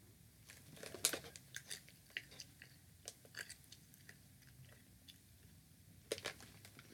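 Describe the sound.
Crunchy chewing of a peanut and a small butterscotch chip: many irregular, faint crisp crunches and bites. The sharpest crunches cluster near the start and again near the end, with no talking.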